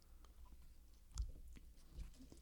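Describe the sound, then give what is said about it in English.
Quiet, soft chewing of a stale Red Vines licorice candy, with two slightly stronger chomps standing out from the low, moist mastication. “Red Vines are the best. When you're at a movie theater and you get Red Vines, all right, take one of those. I'm not going to eat a whole one. Eat the whole thing. No. All right, eat half.”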